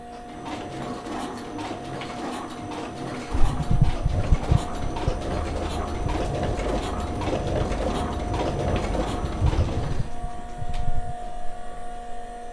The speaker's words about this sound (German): Also die haben jetzt Schokolade in eine Reihe gepackt und jetzt wird die Maschine angeschmissen. Genau, Achtung, jetzt wird's laut.